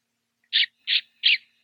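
Three short, hoarse bird calls ring out alone at an even, unhurried pace, each burst brief and fairly loud against silence.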